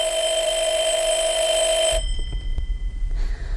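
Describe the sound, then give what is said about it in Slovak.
A telephone rings with a steady, high electronic bell tone that cuts off abruptly about two-thirds of the way through, leaving only low rumbling noise afterward. “Volá doktor Horváth, vraj dôležité.”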